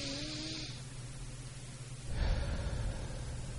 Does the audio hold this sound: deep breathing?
yes